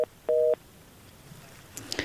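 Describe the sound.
Telephone tones sound after a caller's line drops on a call-in line: a brief two-pitched beep, then a longer steady one of the same pair of pitches, followed by faint hiss and a few soft clicks.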